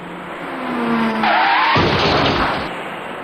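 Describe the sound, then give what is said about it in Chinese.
Tires squeal as a white car drives up to a T-junction on a lightly used road, a rising squeal over engine noise that gives way to a louder, rough burst of noise before easing off. “很快一辆白色小客开了过来，您注意看。”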